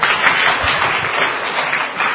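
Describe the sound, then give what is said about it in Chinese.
Audience applause, a dense and steady wash of clapping that stays loud and even for the whole stretch, with no voices over it. “谢谢，掌声鼓励。”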